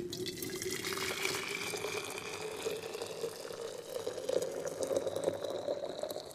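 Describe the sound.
Hot onion tea being poured: a steady liquid stream whose tone rises gradually as the vessel fills, moderately quiet and with no other sounds.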